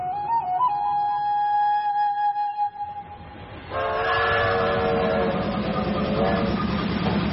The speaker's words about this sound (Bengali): সকালের রোদ ফুটে ওঠার সঙ্গে সঙ্গেই উলা স্টেশনে গাড়ি এসে দাঁড়াল।